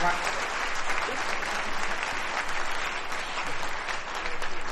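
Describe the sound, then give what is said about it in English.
Applause from a live event audience for a performer: a dense, steady wash of many hands clapping at an even, fairly loud level throughout, with no talk over it. “How about a big round of applause for Robbie Watson, ladies and gentlemen?”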